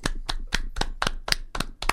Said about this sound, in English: Can we add a round of applause from our studio audience?